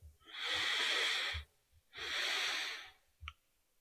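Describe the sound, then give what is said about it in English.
Slow, audible breathing in a guided relaxation exercise: two long, airy, hissing breaths of about a second each, separated by a short pause, then a brief soft click. “We're going to breathe in two times through our nose, like we're smelling freshly cut lemons, pause at the top, and exhale long and slow through our mouth. So it'll be like this.”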